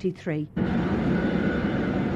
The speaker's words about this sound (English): Monday morning at Dublin Airport, damp and blustery as aircraft taxi to the terminus